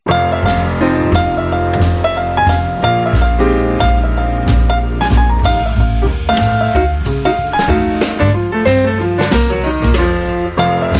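Instrumental music by a Chicago musician, loud and steady throughout, with strong bass notes, sustained chords and regular percussive accents.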